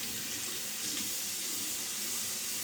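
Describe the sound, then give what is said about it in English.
Water running from a tap while hands are washed, a steady, even hiss of flowing water that stays fairly quiet and unbroken throughout, with no voices. “There we go. Wash my hands off.”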